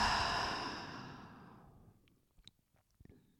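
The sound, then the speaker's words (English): A slow, gentle exhale through the mouth during a deep-breathing relaxation exercise: a soft, breathy rush of air that fades steadily over about two seconds, followed by a few faint small clicks. “And one last deep, deep inhale, hold it, and slowly and gently exhale through your mouth.”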